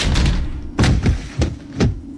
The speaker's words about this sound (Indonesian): lalu pintu berantai itu didobrak dari dalam.